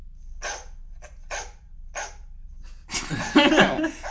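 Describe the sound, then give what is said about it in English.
A dog barks in several sharp, separate yaps across the first two seconds of a quiz sound round, followed by a louder, denser burst of sound toward the end. “Is that a dog? That is a dog.”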